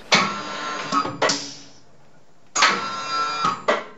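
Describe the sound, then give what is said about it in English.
Printing machinery runs in a print studio, with two long bursts of clattering, whirring mechanical noise and sharp knocks inside each run. Near silence separates the two runs. “Some of the sounds we've captured are the machinery at Verdant Works, DCA print studio,”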